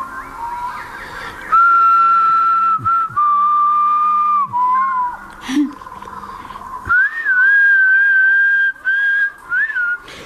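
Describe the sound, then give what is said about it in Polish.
A person whistles a carefree melody in clear, sustained mid-high tones, phrased in a few long held passages with brief pauses and pitch slides, then shorter clipped notes toward the end, alone over a faint low background hum. “Pogwizduje, pogwizduje. Gdyby nie zdał, to by chyba nie pogwizdywał tak beztrosko i jednocześnie tak bezczelnie.”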